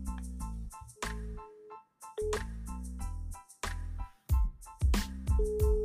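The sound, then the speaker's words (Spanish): A melodic telephone ringtone plays while a call connects: bright sustained tones and low bass notes in a repeating tune, with a few percussive hits near the end and no voices. “está llamando, lo cual es bueno”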